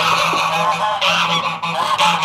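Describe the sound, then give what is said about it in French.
Geese honking on a farm, harsh nasal calls repeating loudly and almost continuously, with a few brief dips between bursts and no talking. “Arrivent les oies, plus agressives que les poules.”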